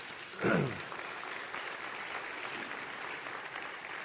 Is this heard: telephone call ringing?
no